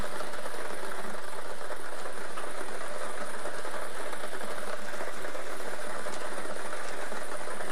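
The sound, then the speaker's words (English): Continuous whirring rattle of a lottery draw machine spinning the balls for a daily numbers game, holding steady and loud from start to finish with no voices. “We're playing our Daily Millions game. Eligible tickets must be dated Tuesday, the 29th of September, 2026. Let's get these balls spinning.”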